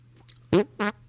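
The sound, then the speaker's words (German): Two fart noises made with the hands, each short, loud and buzzy with a low reedy tone, coming in quick succession with a steady low hum underneath. “Weil alle das kennen, auch dass ich mit den Händen furzen kann.”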